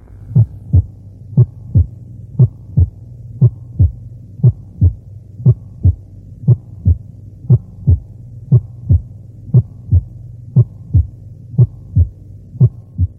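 A heartbeat with a loud first heart sound, caused by widely separated atrioventricular valves closing forcefully at ventricular systole. Many strong, evenly spaced low thumps repeat at a steady rhythm over a faint continuous hum.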